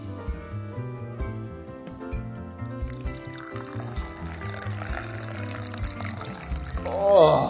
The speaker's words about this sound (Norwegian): lyden av en sånn gammeldags, du vet, de hvite kannene med sånn rød toppen, som heller kaffe. Coffee-battler, tror jeg. Ja, coffee-battler heter han. Oppi en kopp.